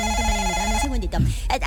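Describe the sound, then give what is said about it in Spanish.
A telephone rings with an incoming call, a steady electronic ringing tone heard under a person's voice as they keep talking. “Espérame un segundito que me está entrando una llamada.”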